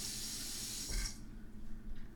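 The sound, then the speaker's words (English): Running water from a sink tap rinses a knife as a faint, steady hiss that cuts off partway through, leaving soft low handling noises. “I should probably do a little bit of cleaning, wash this knife off”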